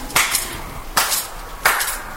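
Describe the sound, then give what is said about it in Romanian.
Hands clap to summon slaves, with three bursts of sharp, loud claps. Some bursts sound doubled, and there are short quiet gaps between them. “Cum îți chem sclavii? Bate din palme.”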